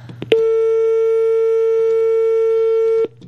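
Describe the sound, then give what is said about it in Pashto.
A telephone tone after a dropped call: a brief click, then one steady, unbroken electronic tone with faint overtones that holds level for nearly three seconds before cutting off abruptly. “ستاسو کال کټ شي تاسو بیا کال کول شي”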